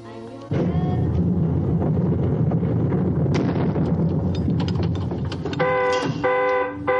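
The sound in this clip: An alarm sounding above a metal bunker door during a World War II attack, its harmonic electronic tone blaring in two bursts near the end after a long, loud, rumbling roar of noise.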